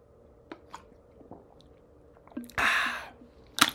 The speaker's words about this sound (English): I'm taking a sip of my... I'm gonna go work out. I mean, I got a little pre-workout here in the little... Thing. I'm taking a quick little sip.